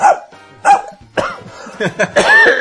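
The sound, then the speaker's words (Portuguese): A human voice imitates a dog barking, giving several loud, throaty woofs in uneven bursts, with short quiet gaps between them. “Fazia outro cachorro.”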